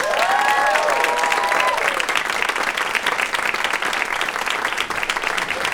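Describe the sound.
Loud, sustained audience applause greets two guests arriving at a live show, steady throughout, with a few cheering voices rising above the clapping at the start.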